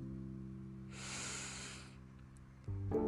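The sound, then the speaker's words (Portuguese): A slow breath drawn in during a guided breathing exercise gives a soft airy hiss about a second long over steady low droning tones. “Inspirando. expirando. Inspirando,”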